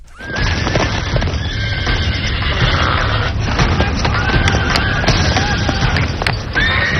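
A horse whinnies and its hooves clip-clop as a rider mounts. Loud, steady hoof beats run throughout, with high, shrill whinnies rising above them.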